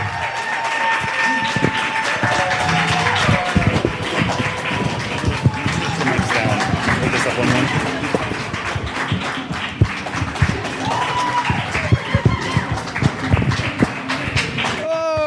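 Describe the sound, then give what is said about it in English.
Applause and cheering greet the start of a show, with irregular claps and whoops under excited, shouting voices throughout. “Give a big hand for Hollywood Hardwood!”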